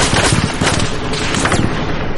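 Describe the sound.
Dense gunfire rings out in a firefight while soldiers drag a wounded comrade to cover. Many loud, overlapping shots and bursts run together continuously, with no clear pause throughout.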